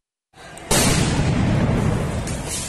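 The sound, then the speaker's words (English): Police fire tear gas into a university campus in New Delhi: a sudden loud boom cuts in and is followed by a long, steady roaring rumble that fades only slightly. “They're firing into the campus.”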